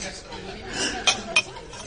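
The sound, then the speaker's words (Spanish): Two bright clinks ring out as a crystal wine glass is carelessly struck, each with a short high ring. Soft chatter runs faintly underneath. “¿Ha palidecido? al golpear yo descuidadamente una copa. Y yo también acabo de ser presa de un espanto. El tono del cristal igual a la voz de la vieja loca de la casa vacía.”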